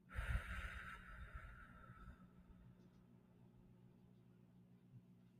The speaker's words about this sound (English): Two, two deep inhales through your nose. One slow exhale through your mouth.